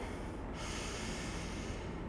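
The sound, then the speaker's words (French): A person takes a deep breath during a guided relaxation exercise: one steady, airy inhalation lasting about two seconds, fairly soft, with no talking. “Prenez une grande inspiration.”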